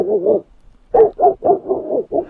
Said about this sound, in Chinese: 你这大狼狗现在哦越来越可以了，我觉得喊得很含蓄啊。